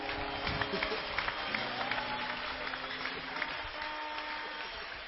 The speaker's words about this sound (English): Would you clap your hands?